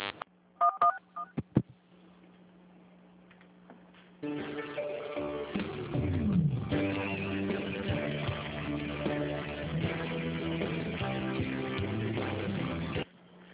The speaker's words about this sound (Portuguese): Digite o ramal desejado ou aguarde.